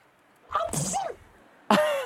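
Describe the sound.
A single sneeze bursts out, sharp and breathy, then after a quiet pause a second short tonal burst follows.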